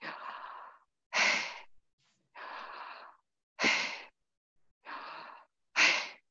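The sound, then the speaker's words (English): Slow, deliberate, slightly forced breathing: six distinct breaths in an even rhythm, alternating softer airy strokes with sharper, louder ones, about a second each, with quiet gaps between and no talking. “So when we breathe, we actually breathe the name of our creator, Yahweh. If you listen to it,”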